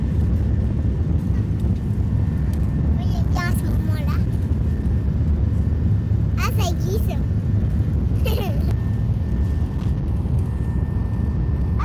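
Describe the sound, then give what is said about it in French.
An airplane taking off, heard as a steady, loud low roar that continues throughout, with voices speaking briefly over it. “On va décoller hein C'est bientôt là.”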